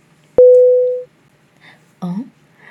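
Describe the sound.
A disconnect tone as a phone call is hung up: a click, then a single steady mid-pitched beep lasting about half a second, followed after a pause by a brief voice-like sound.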